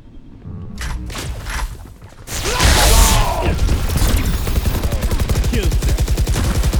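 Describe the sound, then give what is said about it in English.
Weapon sounds in a shooter video game: sparse mechanical clicks and clacks of a reload come first, then a loud stretch of rapid, repeated gunfire with sharp impacts dominates the rest. “Reloading. Fake teleport. Reloading.”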